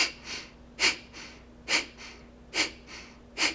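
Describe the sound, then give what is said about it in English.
Rhythmic breath-of-fire breathing: short, soft inhales alternate with four sharp, powerful exhales in a steady, even pulse, with no talking. “Now the inhale is shorter, it's about a quarter breath in, and it almost happens on its own. Most of the emphasis is on the powerful exhale. So the rhythm begins to sound something like this.”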